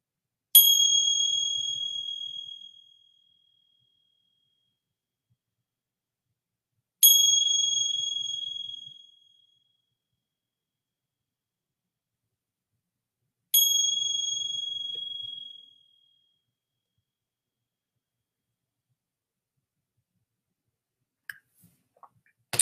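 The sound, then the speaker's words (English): A mindfulness bell rings three times at the close of a guided practice. Each bright, high ring decays slowly over a couple of seconds, with long silent gaps between the strikes. A few faint clicks follow at the end. “and then receiving the sounds of the bell.”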